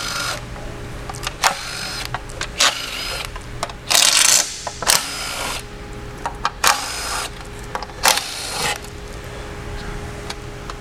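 Screws being removed from a transmission oil pan, heard as many brief mechanical whirring bursts of varying length with quieter pauses between them, with no talk.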